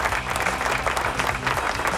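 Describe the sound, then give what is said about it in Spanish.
Canned applause sound effect on a rock radio show, a dense, loud clatter of many clapping hands with faint crowd murmur, continuous throughout. “siempre se le olvidan los aplausos, no los pone en cue, no los pone a tiempo, y ahí van los aplausos. Dale, saca los aplausos ahí. Ahí está.”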